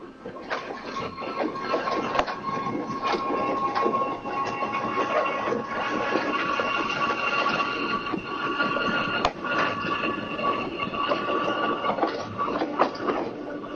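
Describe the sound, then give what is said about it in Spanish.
A crowded commuter train rolling along on a Monday morning, heard inside a windowless car: a steady rumble with rattling clicks and clatter, and one sharp knock past the middle. “el tren que tenía que llegar 8:10 venía atrasado, como siempre. Se cierran otra vez las puertas”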